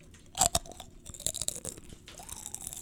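Close, ASMR-style crunching on Flaming Hot Cheeto Puffs: a few sharp, crisp bites near the start, then softer, uneven chewing crackles that continue quietly and alone.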